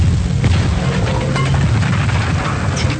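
Grenade explosions roll out as loud, dense booming rumbles with scattered sharp bursts breaking through the continuous low roar.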